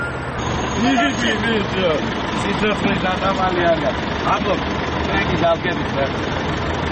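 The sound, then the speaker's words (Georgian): Rumbling engine of a number 3 city bus arriving at a stop where a group of children waits, a steady low drone under people talking, with a brief high beep near the start. “15 წუთიანი ლოდინის შემდეგ ავტობუსი მოდის და ბავშვებიც ერთმანეთის მიყოლებით ადიან ტრანსპორტში.”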